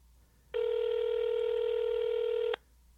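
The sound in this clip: A telephone tone sounds while a call is dialed: a single steady electronic tone lasting about two seconds, rich in harmonics, starting and stopping abruptly against a quiet background.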